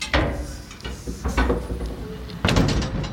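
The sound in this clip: An outhouse toilet door being cracked open, with a few knocking, scraping thumps and then a louder burst as it gives way.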